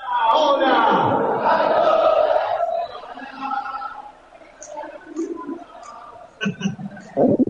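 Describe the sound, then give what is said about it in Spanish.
River Plate football fans gather before a match, their massed crowd noise loud and full at first, then thinning to a lower murmur with brief sharper bursts toward the end. “Mirá la gente, escuchá el público de River cómo se va sumando a esta previa. Escuchalo, a ver.”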